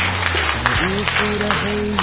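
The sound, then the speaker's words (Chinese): An audience applauds people who raised their hands at a church service, the steady clapping continuing throughout with voices mixed in. “好，我们大家为刚才这些举手人鼓掌哈”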